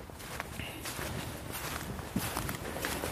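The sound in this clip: Footsteps of people walking off the path into a forest, a run of soft, fairly faint steps crunching over the ground at an even walking pace.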